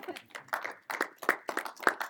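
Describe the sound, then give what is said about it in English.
An audience at a spoken-word poetry performance claps faintly, with a thin, uneven scatter of hand claps in small bursts rather than a full roar. “How about an applause to yourself?”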